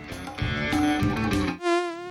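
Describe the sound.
A mosquito buzzes with a thin, harmonic-rich whine that swells in briefly near the end, following a denser, louder stretch of sound.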